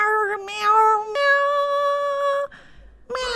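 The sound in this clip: A cat meowing as if singing vocal exercises, with a few drawn-out, tonal, high-pitched meows. The longest is a steady held note that jumps abruptly to a higher pitch partway through.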